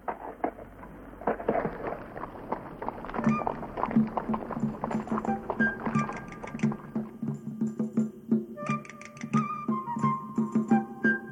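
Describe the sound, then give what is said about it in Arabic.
Horse hooves clip-clopping on a desert journey, a steady run of many hard knocks that keeps an even pace through the whole stretch, with some louder strikes standing out. “والآن هيا، الحصان جاهز ينتظرنا.”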